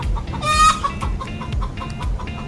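A chicken clucks with one drawn-out, harmonic cackle early on, followed by a few short, softer clucks over a steady low rumble.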